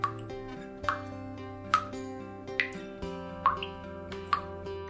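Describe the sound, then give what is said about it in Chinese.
Water drips from a kitchen tap left not fully turned off after cooking. About six soft, evenly spaced plops fall roughly once a second over a faint, sustained musical backdrop. “哦，一定是阿嬷煮完饭忘记把水龙头关紧了啦。”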